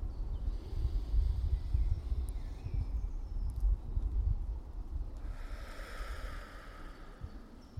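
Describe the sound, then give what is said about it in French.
A long, deep breath drawn in through the nose in an outdoor natural setting, a soft airy rush partway through. It sits over a steady low rumble of wind-like noise, with no talking. “Et je vais commencer par prendre une grande inspiration par le nez. Vraiment aspirer tout l'air, tout ce qui m'entoure.”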